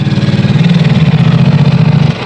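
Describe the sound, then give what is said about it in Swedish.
A police motorcycle with a sidecar runs its engine in a loud, low, steady throb of rapid even pulses, holding level before easing slightly at the very end. “Men så kom en motorcykel med sidovagn.”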